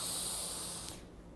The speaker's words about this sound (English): Let's take a group deep breath on three. One, two, three.